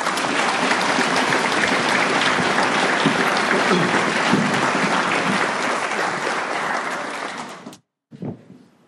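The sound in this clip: Sustained applause for a speaker at an Alcoholics Anonymous meeting, a dense, even clatter of many hands that holds for about seven seconds, then tapers and stops abruptly.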